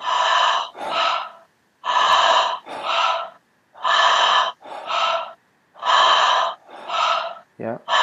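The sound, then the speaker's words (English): Repeated paired breaths from a breathing exercise built around a relaxed, unforced exhale. About four steady inhale-exhale cycles run in an even rhythm, fairly loud and airy, with short pauses between pairs. “And the exhale's completely relaxed. So there's no force in the exhale. It's almost like you're misting your glasses if you were to clean your glasses.”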